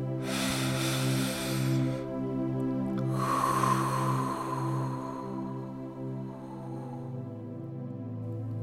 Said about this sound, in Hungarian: Veszünk egy nagy levegőt.